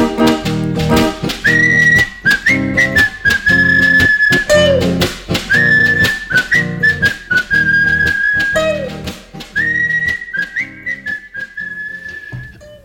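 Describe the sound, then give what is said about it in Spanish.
Three young Spanish men whistle a bouncy tune together over a steady, rhythmic musical backing. The bright, loud whistled melody repeats in short phrases, with no talk. “Somos tres chicos españoles y silbando nos vamos así.”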